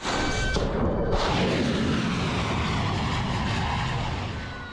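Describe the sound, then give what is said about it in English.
Military strikes and artillery fire from overnight strikes on Iranian targets, aimed at Iran's ability to attack commercial shipping. A loud, dense, sustained roar of rumbling blasts and thuds holds steady throughout, easing slightly at the very end. “that was the sound of footage from US Central Command, which said it launched 5 hours of strikes overnight”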